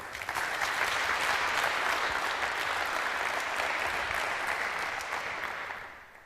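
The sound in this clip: Audience applause welcoming a speaker to the stage before a talk on making things from electricity: dense, steady clapping that holds for about six seconds, then tapers off at the end.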